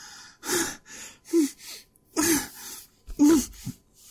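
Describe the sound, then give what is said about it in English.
Gasping, hyperventilating breaths: several sharp, strained inhalations, some with a voiced catch, come in uneven bursts separated by short pauses. “Why am I hyperventilating?”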